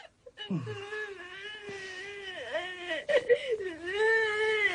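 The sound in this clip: A child crying in long, wavering wails that bend up and down in pitch, broken by brief sobbing catches, loud and without any talk.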